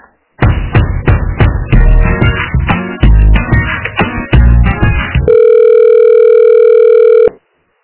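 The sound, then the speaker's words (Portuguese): Telephone line tone during a call transfer: several seconds of plucked, percussive music give way to a single long, steady tone of about two seconds that cuts off abruptly. “Ah, sim, só um pouquinho. Já passo ligação, tá?”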